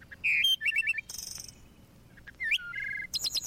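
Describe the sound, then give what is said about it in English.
Bird song made of varied high whistled notes, quick trills and short chirped phrases, separated by brief pauses and fairly loud against a quiet background. “The sound of a harp, the song of a bird,”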